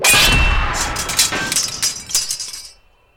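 A sword shatters against a spear in a loud, bright crash, then many clinking, tinkling fragments scatter and fade away into silence.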